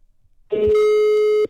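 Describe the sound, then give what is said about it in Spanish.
A single ringback tone from an outgoing telephone call as a number is dialed: one steady, even-pitched electronic tone lasting about a second, loud and alone, with no voices. “Ahí está. Ahí está marcando.”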